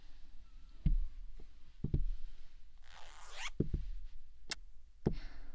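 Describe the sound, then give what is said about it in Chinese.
A zipper over the mouth of a tight latex suit is unzipped with a brief, rasping zip, set among several soft, dull thumps and knocks of handling. “这简单，主人再帮你把嘴巴上的拉链拉开就行了。”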